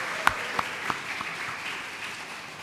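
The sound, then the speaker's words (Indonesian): Church audience applause marking the 33rd anniversary of an audience, heard as a few distinct claps at the start that quickly thin out into a faint, fading patter. “Mari kita aplaus juga untuk gereja kita.”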